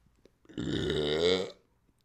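A single long belch rumbles out for about a second, deep and drawn out, loud and alone, with no talk over it.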